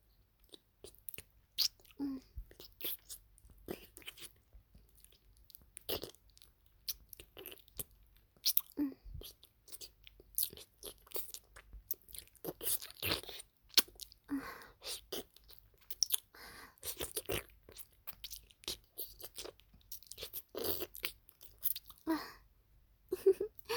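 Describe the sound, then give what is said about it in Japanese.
Wet licking and sucking mouth sounds during an intimate adult roleplay: many small smacks and slurps, clicking and irregular, mostly soft with occasional louder wet bursts, with no talk over them. “じゃあ、お掃除フェラチをするね。”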